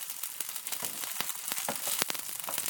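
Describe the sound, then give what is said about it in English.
Food fries in a pan holding too much oil, giving a steady, faint sizzling hiss broken by many sharp spits and pops. “But I've probably put too much oil in there, it's probably spitting a bit too much.”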